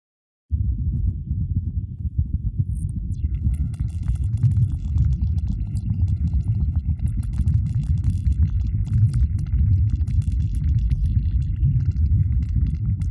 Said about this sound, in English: So that was the sound of the seismometer, and the pitch had been increased.